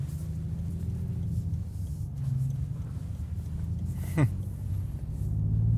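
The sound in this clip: Steady low interior rumble from a Rolls-Royce Wraith Black Badge being driven, a continuous dense hum with one brief sharp chirp near the end.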